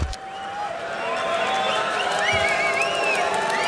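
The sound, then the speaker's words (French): Concert audience waiting before the show with the stage in darkness, a constant murmur of crowd chatter with scattered shouts and cheers rising over it. “Et vous entendez le public qui patiente ici. La scène est plongée dans l'obscurité.”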